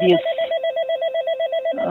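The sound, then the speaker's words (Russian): An intercom ringing with a steady, warbling electronic tone that pulses rapidly and evenly, heard alone between brief bits of a voice at the start and end. “Сейчас, извините, тут звонит интерком.”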